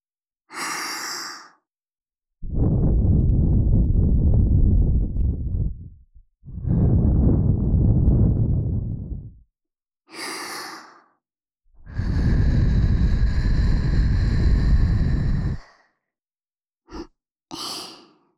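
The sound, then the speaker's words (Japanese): Strong puffs of breath blown close into the ear for ASMR: three long, roaring gusts of a few seconds each, broken by shorter, airier breaths and stretches of silence. “強く吹くよ。”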